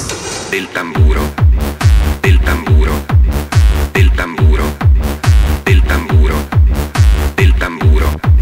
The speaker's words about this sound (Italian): Ascoltiamo questa marcia e osserviamone il tempo del tamburo.